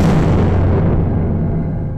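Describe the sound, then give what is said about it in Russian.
A heavy explosion, far louder than a firecracker, bursts into a loud, broad rumble. The hissing top fades gradually while the deep boom keeps rolling to the end. “и тут же в его стороне взорвалось что-то куда более громкое, чем петарда.”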